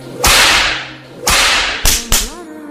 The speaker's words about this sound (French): sans oublier le fouet et des jolies petites tapes